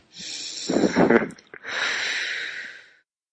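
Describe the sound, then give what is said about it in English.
A person takes a deep breath: a noisy inhale, then a short voiced, snort-like sound, then a long, steady audible exhale that fades out. “Okay, take a deep breath.”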